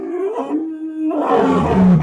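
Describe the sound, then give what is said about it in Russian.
A low roar rolls across a snowy plain, opening as a steady droning growl and swelling into a louder, rougher rumble toward the end, with no voices. “Низкий рев, прокатившийся вдруг над заснеженной равниной, заставил его вскочить на ноги.”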